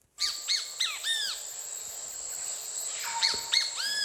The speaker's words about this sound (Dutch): Een onomatopee. Een klanknabootsing, namelijk de kiskadee. Ja, en ze zeggen dan kratje bier.